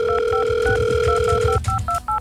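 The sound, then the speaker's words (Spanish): A telephone dials a call: a steady dial tone holds, then cuts off and gives way to a few short, clipped dialing beeps, with no talking. “ya está marcando a alguien ahí.”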